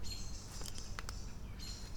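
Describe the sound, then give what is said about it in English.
Faint, high chirping from an unfamiliar bird outdoors on a cloudy day, in short repeated notes over a low, steady background rumble. “What's that funny bird sound? There's a bird chirping that I don't recognize.”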